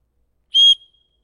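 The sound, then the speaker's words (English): A referee's whistle at a basketball or football game gives one short, sharp, shrill blast that cuts off abruptly, heard alone against silence. “What do? They blow the whistle. Time out.”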